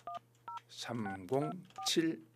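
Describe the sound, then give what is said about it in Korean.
Touch-tone dialing beeps as a radio host phones a listener: three short electronic tones, two close together at the start and one later, with people talking between them. “방학생들에게 저희가 전화를 한번 걸어서요. 자, 어떤 방학생들을 하나님께서 만나게 해주실지 예 한번 전화를 한번 걸어보겠습니다.”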